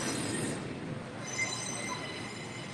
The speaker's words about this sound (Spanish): Estamos aquí. Está pasando el tren en este momento. Pueden ver.